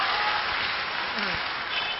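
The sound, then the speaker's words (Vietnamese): Audience applause for a good question at a Buddhist talk: a brief, steady patter of many people clapping, dense and even without a clear peak. “Dành chào hết tay cho câu hỏi rất hay.”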